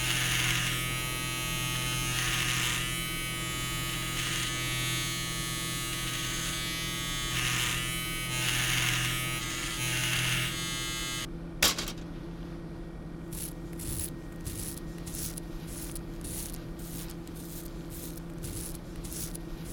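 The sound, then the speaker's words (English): An electric shaver buzzes steadily while shaving hair from a man's head ahead of a skull incision, then cuts off with a sharp click, leaving quieter handling noises. “I'm shaving the hair around his head in order to make a clean incision as we remove the skull cap.”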